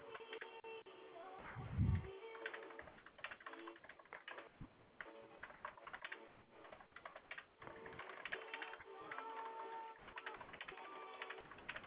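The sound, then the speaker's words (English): Typing on a computer keyboard: many quick, irregular key clicks in bursts, faint and muffled, with one brief louder thump near the start. “Bear with me just a moment. I've got to get this typed out.”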